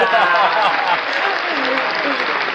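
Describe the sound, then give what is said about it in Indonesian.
Steady applause sound effect, a dense, even patter of clapping crowd noise that stays loud throughout, with a voice talking over it. “kasih keprok dulu dong oh iya kasih keprok”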